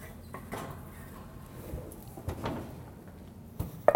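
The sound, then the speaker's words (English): Soft clunks and sliding knocks as frittata pans are pulled out of an oven, faint and sparse, with a few scattered bumps and a sharper clank right at the end. “So the frittata's had about 10 minutes to cook. Let's pull them out of the oven.”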